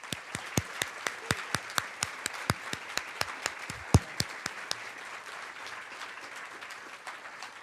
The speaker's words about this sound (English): we ask that you hold your applause except for two occasions. At the end, when we close the debate, and right now, as we welcome our two candidates, Steve Dettelbach and Dave Yost.